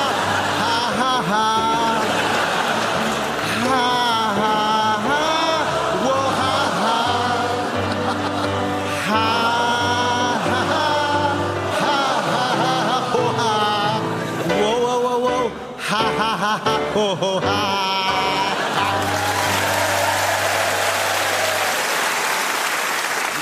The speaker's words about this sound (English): And thank you, audience. That's the first time I've ever heard sarcastic singing along.